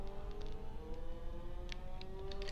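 A car engine accelerates in a racing video game, making a faint, steady whining drone whose tones creep slowly upward in pitch.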